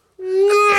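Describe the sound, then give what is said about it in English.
A voice imitates a race car passing by with the Doppler effect: an abrupt, loud, buzzing engine vroom that starts after a short silence and is held to the end. “Because that's the Doppler effect. That's and I wanted the Doppler effect, and he didn't give me the Doppler effect.”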